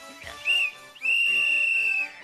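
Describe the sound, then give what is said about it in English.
A whistle is blown twice, first a short shrill blast and then a longer, steady, high-pitched one, loud against a quiet background with no talking. “Stop blowing that whistle! I've got another whistle!”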